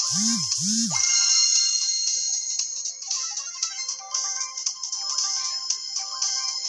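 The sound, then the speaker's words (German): Phone message notification tone: two quick chirps that rise and fall in pitch, followed by a continuous high, busy electronic sound. “Okay, Freund hat mir gerade Nachricht geschickt.”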